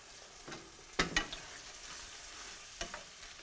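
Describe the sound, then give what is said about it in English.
Chopped tomatoes sizzle faintly in a pan with onions and garlic over raised heat, and a few sharp stirring clatters punctuate the soft, steady frying hiss. “And add them to the onions and the garlic. Turn the heat up and let them cook for a minute or two.”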